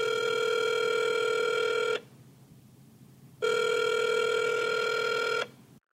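A telephone rings twice, each ring a long, steady electronic trill of about one and a half seconds, separated by a quiet pause, loud and alone.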